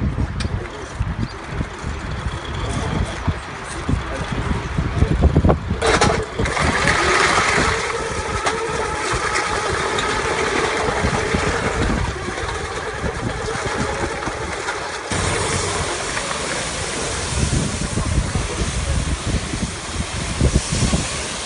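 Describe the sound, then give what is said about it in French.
A bomb disposal robot blasts water at very high pressure onto a suspect package, producing a loud, dense, engine-like roar that surges abruptly louder partway through and then holds steady. “va pulvériser directement la charge ou le colis suspect. Avec de l'eau ? Oui, tout à fait, avec de l'eau. C'est de l'eau à très forte pression qui va être envoyée très rapidement.”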